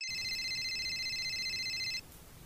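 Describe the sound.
A telephone rings with a steady, high electronic tone for about two seconds and then stops, leaving a low background hum.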